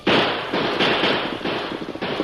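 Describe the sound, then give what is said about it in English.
Revolver gunshots in a western radio drama: several loud, sharp cracks fire in quick, uneven succession, each blurring into a dense burst of noise, with no talking. “Shoot him, Tom. There, they emptied the bullets. I'll have to load her.”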